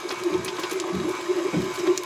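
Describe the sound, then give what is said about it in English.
An 18th-century mixer creaming butter makes an uneven, repetitive mechanical clatter and whir, with a steady tonal hum underneath and small rattling bursts throughout. “Butter going into the 18th century mixer.”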